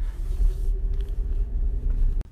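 A vehicle drives along a road with a low, steady engine rumble that swells and dips slightly. A faint steady tone runs above the rumble, and a short sharp click sounds near the end.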